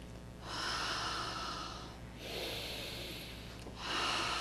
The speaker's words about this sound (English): When it, when you take your breath in,